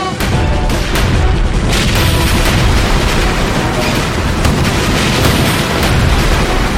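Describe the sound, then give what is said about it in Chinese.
Cannons fire in a sea battle between warships, producing a loud, continuous roar of booming blasts and crackling bursts that never lets up. “颜书泽当时以大炮还以干涉，大炮发射。”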